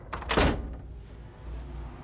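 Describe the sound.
A single heavy thunk of a door being opened, a short loud burst that quickly fades into a low, quiet background.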